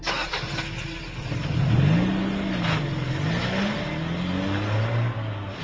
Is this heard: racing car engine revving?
yes

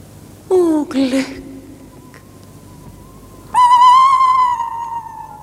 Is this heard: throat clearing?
no

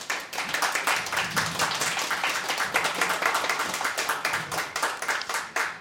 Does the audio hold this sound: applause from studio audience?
yes

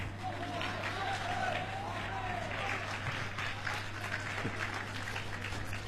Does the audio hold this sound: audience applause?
yes

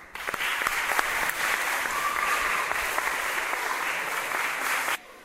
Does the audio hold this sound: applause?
yes

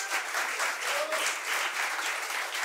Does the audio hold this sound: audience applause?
yes

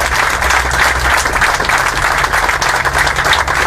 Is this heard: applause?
yes

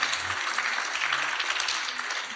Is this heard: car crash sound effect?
no

